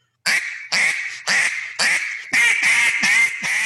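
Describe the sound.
A Jargon Game Calls Brown Money duck call is blown in a string of about eight loud, raspy, nasal quacks. The notes come in even bursts at first, then quicker and closer together toward the end, with no voices.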